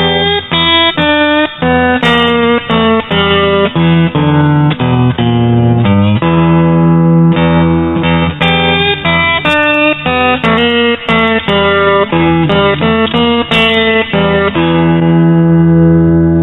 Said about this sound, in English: So if I play the blues scale starting with G on the first string and keeping the open E going the whole time, I'll keep the same rhythm both with my pick and my finger. It'll sound like this.